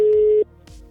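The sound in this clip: A telephone ringing tone sounds as a call is placed: a steady, single-pitched tone lasting under half a second, then cutting off to faint low noise.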